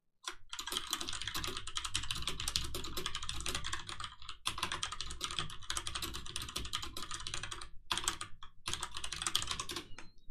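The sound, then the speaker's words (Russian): Fingers type on a computer keyboard whose space bar sometimes registers on its own, producing quiet, rapid clicking in dense bursts separated by a few short pauses. “Напомню, какая клава. У меня Keyboard. Я доволен.”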